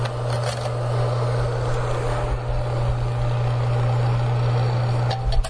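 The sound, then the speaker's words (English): A bicycle wheel spinning very fast gives off a steady, unbroken whirring drone with a low hum, holding an even level before a brief bump near the end. “Same bicycle wheel now doing nothing but rotating very fast.”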